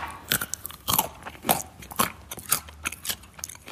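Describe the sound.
Someone chews crunchy snack food close to the microphone, with many sharp, loud crunches in an irregular rhythm separated by quieter moist chewing.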